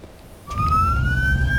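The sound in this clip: An ambulance siren in traffic starts abruptly and climbs slowly in pitch as a loud, sustained tone over a low rumble of road noise.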